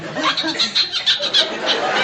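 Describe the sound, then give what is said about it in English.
A person imitates a bird cough with a quick series of short, raspy, high-pitched vocal bursts in an uneven rhythm, fairly loud and alone. “What was that? Oh, I'm just practicing my bird cough.”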